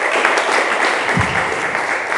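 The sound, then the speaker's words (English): An audience applauds a speaker giving a religious talk. The clapping is dense, even and sustained, holding a steady level from start to finish with no voices standing out. “Yeah, give her a clap.”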